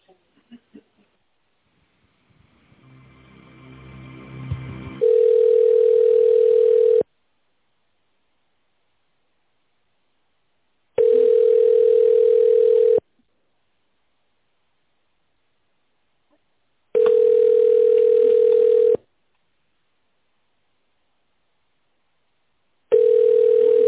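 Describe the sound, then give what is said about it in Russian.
Telephone ringback tone plays while a call is being transferred. A steady mid-pitched tone sounds in four roughly two-second bursts, with about four seconds of silence between them, after some faint noise at the start. “оставайтесь на линии, я вас соединяю”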